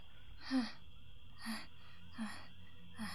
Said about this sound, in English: I must stop. Catch my breath.